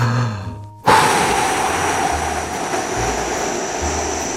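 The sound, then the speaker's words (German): A strong, forceful exhale during a breathing exercise while lying on the floor: a loud rush of breath that starts abruptly and slowly tapers over several seconds. “Jetzt kräftig ausatmen.”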